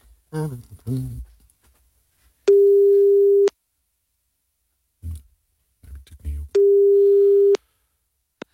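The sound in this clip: Telephone ringback tones while calling someone: two long, steady, mid-pitched beeps, each about a second, separated by a pause. Brief bits of talk come before each tone.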